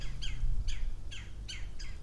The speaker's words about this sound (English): Okay, these are birds that are vaguely upset about something, right? Are they upset at my presence?